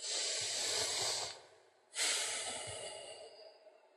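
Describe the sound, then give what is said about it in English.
A big breath taken during a guided meditation: a long airy inhale, a short pause, then a strong breathy exhale that fades out slowly, heard on its own without talk. “So I want us all to first off just take a big breath.”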